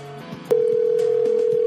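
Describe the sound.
Ringback tone of an outgoing telephone call: after a brief burst of mixed noise, a steady single-pitched tone sounds loud and unbroken through to the end.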